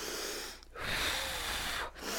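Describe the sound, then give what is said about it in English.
A woman imitates heavy breathing through labor contractions: loud, forceful, breathy rushes of air, three long breaths separated by brief gaps, with no talk. “I actually just, like, breathed the whole time like that, like, really hard.”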